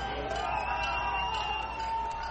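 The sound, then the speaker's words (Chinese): Crowd cheering and chanting outside the newly opened Cuban embassy in Washington as the flag is raised: a sustained blend of many voices with tonal, chant-like shouts, moderately loud and continuous. “在欢呼声和口号声中，外交官、祝福者和示威者都在观看古巴国旗在新成立的大使馆外面升起。”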